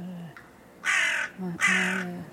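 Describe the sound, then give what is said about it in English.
A crow caws indoors in a room: two loud, harsh caws in quick succession over a quiet low hum. “Do you not have another room for the crow to go in? I could put it in the toilet, I don't know. Put the crow in another room.”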